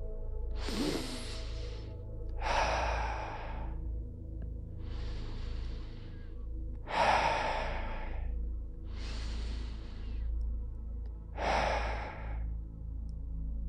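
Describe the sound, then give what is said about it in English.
Three slow, deep breaths taken in unison, heard as six soft, airy rushes of air in evenly spaced in-and-out pairs, quiet and unhurried with no talking. “Let's take 3 deep breaths together.”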